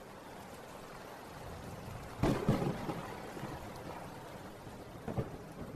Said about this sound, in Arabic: ايه ده، دي الدنيا بتمطر فعلا والهوا جامد.